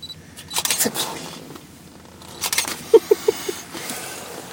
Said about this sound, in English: You're taking pictures of me with your fancy-dancy camera.